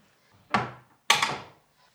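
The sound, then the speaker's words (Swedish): A cupboard is opened to take out a bottle, heard as two sharp wooden knocks a moment apart, each followed by a short, fading rattle. “jag måste plocka fram en från skåpet”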